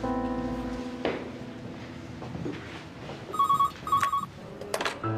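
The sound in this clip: A telephone ringing with two short bursts of an electronic ring tone, each under half a second and clearly loud, after a stretch of low background noise.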